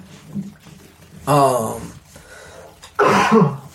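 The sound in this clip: Throat clearing from someone with a tickle in the throat: two loud, harsh bursts, the first brief and raspy, the second longer and heavier, separated by quiet breathing.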